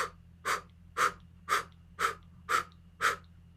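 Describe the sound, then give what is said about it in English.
Seven forceful breaths blown out from the diaphragm during a breathing exercise, evenly spaced about half a second apart, each a short, breathy whoosh over a faint low hum. “So a blow breath is coming from the diaphragm and just blowing out.”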